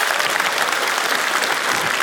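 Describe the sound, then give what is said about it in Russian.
Audience applause, a dense and steady wash of many hands clapping at an even loudness for two seconds, with no voices above it. “Под ваши аплодисменты.”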